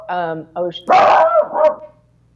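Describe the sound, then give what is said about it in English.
A dog barks in a few loud, sharp bursts, the first ones tonal and yelping, followed by a longer, rougher bark and a final shorter one before the sound stops. “Sorry about the dog.”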